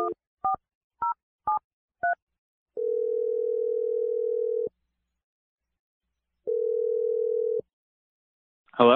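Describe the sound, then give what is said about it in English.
Five short telephone keypad tones beep in quick succession as a number is dialed, then two long, steady ringing tones sound, separated by silence, with a brief noise at the very end. “I'm going to dial Michael's number right now.”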